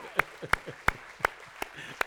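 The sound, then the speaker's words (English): Hand claps from a church gathering applauding teachers: about six sharp, separate claps at a slow, even pace, with low talking underneath. “Should we give them another hand clap for that?”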